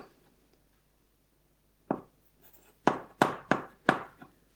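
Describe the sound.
Someone writes letters on a board during a mathematics lecture, making several sharp, dry taps and short scrapes in an irregular rhythm. The strokes follow a quiet opening and stand out against near silence, with no talk.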